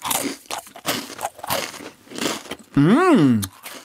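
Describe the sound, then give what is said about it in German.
Crisp crunching as a thin, thumb-long Serbian cookie resembling a butter biscuit is broken and bitten, several short dry cracks in a row, then a loud hummed vocal sound that rises and falls in pitch. “Ich breche den mal durch und ich esse mal.”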